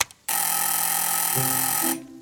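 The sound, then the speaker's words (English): A front gate buzzer gives a loud, harsh, steady electronic buzz of under two seconds, starting abruptly after a brief click and cutting off cleanly. “I roll up to his front gate and hit the buzzer.”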